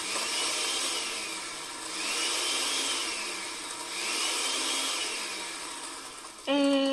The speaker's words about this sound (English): Now, hold on while I take this hunk of meat over to the comically large meat grinder. Now, let's turn this thing on.